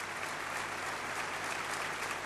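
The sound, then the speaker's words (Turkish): Sustained applause from a concert audience for an orchestra and its performers, a dense, even wash of clapping that holds at a steady level throughout with no voices standing out. “Orkestrayı alkışlıyor her ikisi, orkestrayı da selamladılar.”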